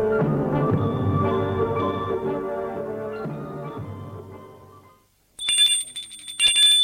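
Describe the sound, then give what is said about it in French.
A doorbell rings at a fifth-floor apartment door in two bright, high electric bursts, the second cut short. It comes alone, just after a stretch of music fades out. “Et le samedi soir, il va sonner au 5e étage.”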